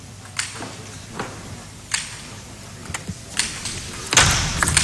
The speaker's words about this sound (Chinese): 接下来看早田希娜的发球， 早田希娜是打不穿孙颖莎的， 会不会有什么变化？